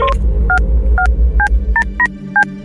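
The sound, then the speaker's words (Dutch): Touch-tone telephone dialing while placing a call to a studio: seven short, clear beeps at uneven intervals over a steady low hum, with no voices. “Wij bellen naar de WK Situation Room van VI.”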